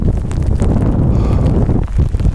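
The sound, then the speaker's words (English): Wind buffets a microphone outdoors in windy, cold weather, making a loud, continuous low rumble with gusty surges and no talk. “I'm gonna shut down again. It's getting a little too windy”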